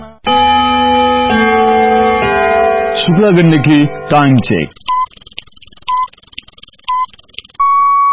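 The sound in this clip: A radio time signal marking 10 pm: a sustained musical chime fades into three short, evenly spaced high beeps one second apart, followed by a longer final tone, all crisp and loud.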